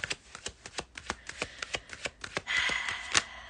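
Tarot cards handled and drawn from a deck: many quick, crisp clicks in an even rhythm, then a denser, louder riffling burst near the end.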